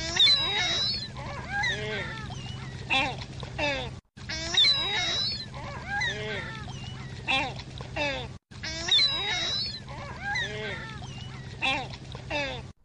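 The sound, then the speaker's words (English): Ring-billed gull calling near water: many sharp, mewing cries repeat over a steady wash of water noise, broken by two brief gaps. “This is a ring-billed gull.”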